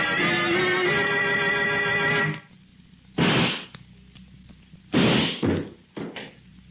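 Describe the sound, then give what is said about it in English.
Gunshot sound effect in a radio drama, a gun going off during a struggle: music ends, then a few sharp, loud bangs and thumps follow with short pauses between them. “You fool, Ripley. You shot him. No, Corbin. It was an accident. Armstrong tried to take my gun. In the struggle, it went off.”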